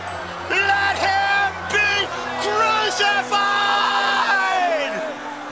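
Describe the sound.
Loud shouting from a crowd of many overlapping voices demanding crucifixion before Pilate, sustained for several seconds with brief dips and rising, straining cries.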